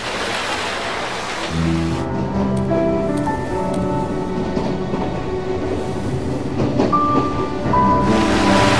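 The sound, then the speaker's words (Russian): A train rolls steadily past a small island across open water, with a continuous low rumble and clatter that lasts nearly nine seconds and carries faint tonal ringing, and nobody talks. “Поезд проезжает мимо небольшого острова.”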